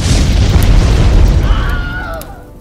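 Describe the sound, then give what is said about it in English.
A deep, loud boom as a Molotov cocktail bursts against a blimp floating above barracks, followed by a heavy low rumble that slowly fades away. “And he throws a Molotov at the blimp part that's floating above the barracks.”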